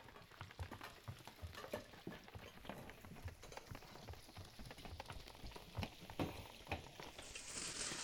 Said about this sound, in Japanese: 正解は小狐たちが料理をしている音です。